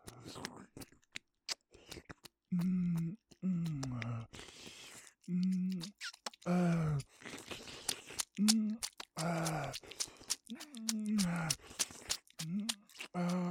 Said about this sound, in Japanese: じゃあ僕はその間にお嬢さんにキスしてもらおうかな。ほーら、